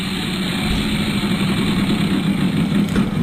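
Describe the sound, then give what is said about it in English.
A big prize wheel spins with a steady, rapid whirring rattle that keeps an even level for about three seconds, with no talk over it. “but I am going to try to spin the wheel. It's a big wheel”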